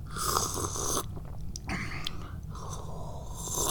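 Someone slurps sips of tea with a few noisy, breathy draws separated by short quiet gaps. The sounds are soft and hissy.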